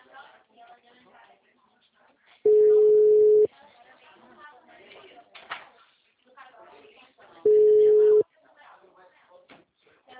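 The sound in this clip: Telephone tones on a line after a dropped call: two long, steady mid-pitched beeps, each about a second, separated by a few seconds of talk. People speak throughout between and around the tones.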